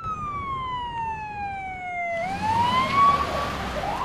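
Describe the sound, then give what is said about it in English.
An ambulance siren as it pulls up outside a hospital in Gaza: a steady wailing tone slides slowly downward, then sweeps back up, loud and alone with a low rumble beneath. “An ambulance pulls up outside a hospital.”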